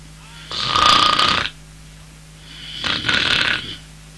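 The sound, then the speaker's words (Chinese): A storyteller imitates snoring with his voice: two long, loud, rasping snores, each about a second long, separated by a quiet pause, with no other talk. “一听啊有打呼噜的声，康永也乏了，往椅子上一靠睡着”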